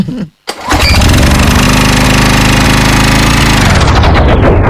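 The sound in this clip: A fuel-run generator drones loud and steady after a brief gap, its rough engine roar holding a constant, dense low rumble with a mechanical buzz throughout and no voices.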